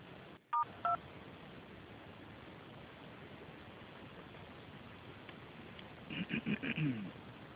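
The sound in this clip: Telephone keypad dialing tones: two brief tone beeps near the start, then a quick run of several more beeps after a long stretch of steady line hiss.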